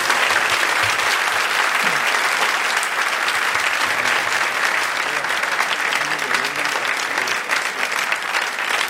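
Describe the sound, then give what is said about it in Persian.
Applause for a woman on stage at a religious celebration: loud, continuous clapping from a large crowd that holds at an even level throughout. “یک کف خیلی زیبا برای خانم بزن.”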